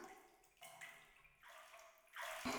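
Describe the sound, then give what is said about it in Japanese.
Hot spring water piped from the source flows into a bath, a faint trickling and splashing that comes in uneven surges and grows a little louder toward the end. “このお湯も源泉から引っ張ってきていますので、効能もバッチリ。”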